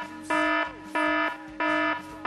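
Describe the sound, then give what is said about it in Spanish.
Loud alarm sound effect: a harsh, buzzing electronic tone sounds in evenly spaced bursts, three full ones with a fourth starting at the end, with short silent gaps between them. “Esto sí que es una alarma.”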